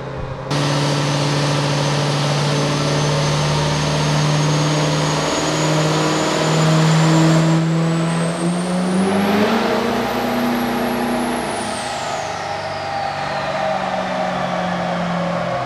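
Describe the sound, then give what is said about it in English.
A race car engine roars through a drag racing pass at a horsepower competition as the car tries for 1,000 horsepower. The loud, sustained drone carries a high whine that climbs in pitch, holds, then drops away near the end. “He's going to get in it. He's going to make one more pass. This is his last shot to get into that 1,000 horsepower club at DPC 2019.”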